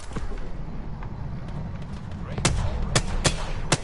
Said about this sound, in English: Is that a sentinel shot?